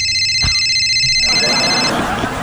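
A telephone rings with a bright, high-pitched electronic ringtone that holds for about two seconds and then stops, over steady background noise.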